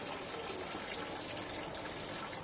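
Tap water runs steadily while someone washes their hands, giving a soft, continuous hiss and splash with no talk.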